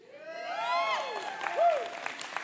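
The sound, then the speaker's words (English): A church audience applauds and cheers, with high whooping calls rising over steady clapping. The sound is fairly faint throughout. “Thank you for applauding that.”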